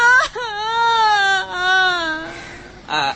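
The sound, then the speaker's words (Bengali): A child cries in long, wavering wails and whimpers, with a brief break in the middle and a final short sob at the end. “থামো দেখি, থামো থামো থামো, আরে কাঁদে না।”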